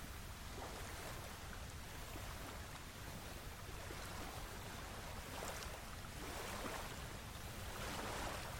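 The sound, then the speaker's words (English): Gentle waves lap onto a shore, driven by a slight current and tide, under a barely noticeable breeze. A soft, continuous wash of water rises into a few gentle swells, quiet and without voices. “The gentle current and tides create little lapping waves onto the shore”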